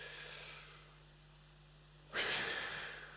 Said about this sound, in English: One more time through your nose. Now only through your mouth. As deep as you can through your mouth and then breathe out as hard as you can.